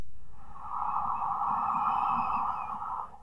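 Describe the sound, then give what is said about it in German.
Long, steady inhale through the nose into cupped hands during a guided breathing exercise: one smooth, airy draw lasting about three seconds, fairly faint and alone, ending abruptly. “Und dann nimm deine Hände zur Nase und atme über die Nase ganz tief ein.”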